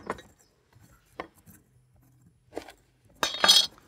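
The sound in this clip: A knife cuts slices for a stock on a board, with a few faint, sparse clicks and taps and then a louder, longer scraping cut at the end.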